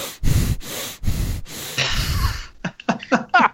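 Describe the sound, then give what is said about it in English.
A person breathes in and out through the nose with puffed-out cheeks, giving a series of loud, rough nasal breaths in a steady rhythm, followed by a few short, choppy breathy sounds. “Keeping your cheeks puffed and breathing through your nose is essentially circular breathing.”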